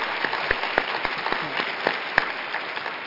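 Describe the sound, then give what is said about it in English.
An audience claps in sustained applause, a dense patter of many hands with a few sharper, louder claps standing out over an even, moderately loud wash. “another round of applause for Sally”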